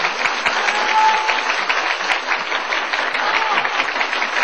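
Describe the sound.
Audience applause, an even wash of clapping that holds steady from start to finish without pauses.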